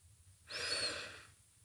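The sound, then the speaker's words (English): A single deep breath drawn in from the belly during a guided breathing exercise, a smooth, airy inhale that swells and then tapers off, quiet and alone. “Deep breath in from your belly. Exhale fully. Deep breath in.”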